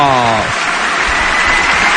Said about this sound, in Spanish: vuelve a levantar al público Jodar, son dos bolas de break para el tenista de 19 años.